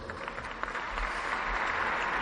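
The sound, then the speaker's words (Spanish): Audience applause marking an institution's 94th anniversary at an event in the Community of Madrid: dense, steady clapping that swells after the first moment and then holds at an even level. “aplausos por esos 94 años.”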